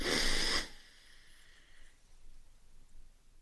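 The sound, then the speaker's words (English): A single deep breath drawn in during a group breathing exercise: a loud, airy rush lasts about half a second, then faint low background noise follows. “so let's just take a couple of breaths in”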